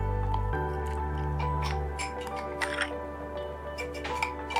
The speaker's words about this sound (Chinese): 然后充分的搅拌，再搅拌几次，我们让它均匀的来去，可以分解。